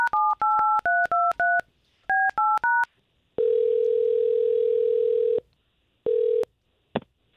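Telephone keypad tones while calling a woman: a quick series of beeps in two bursts, then a long steady ringing tone, a shorter second one, and a click.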